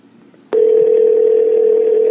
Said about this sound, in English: It's a ringing.